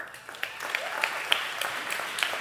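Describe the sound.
Audience applause welcoming a speaker to the stage at a Rockbrook church service: steady, dense clapping with a few sharper individual claps standing out, holding an even level throughout.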